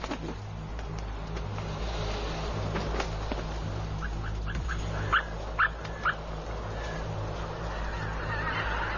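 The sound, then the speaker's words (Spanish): Geese honking at night over receding floodwater: a few faint calls build to three louder, nasal honks in quick succession, all set against a steady low hum of background noise. “Los gansos pasan la noche sobre aguas decrecidas, donde se sienten a salvo.”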